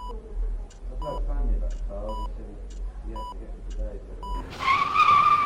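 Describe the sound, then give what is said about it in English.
Tires squeal loudly as a car swerves off the road toward a tree, a sharp, high screech bursting in near the end after a low rumbling stretch marked by regular short beeps about once a second. “The car in front of me, it swerved off the road and ran into a tree.”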